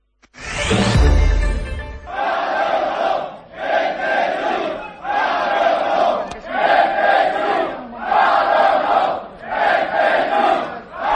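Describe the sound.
A protesting crowd outside the Teatro Principal de Pontevedra chants at the start of a council session. A loud burst opens, then a short phrase is shouted in unison several times in a steady rhythm, with brief pauses between repeats.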